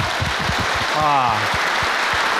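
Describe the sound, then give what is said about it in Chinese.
Audience applause at a televised Henan opera show, a dense, even wash of clapping that holds steady for the whole stretch, with a brief voice rising over it midway. “把掌声送给自己。”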